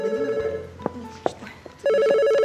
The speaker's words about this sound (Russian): телефон!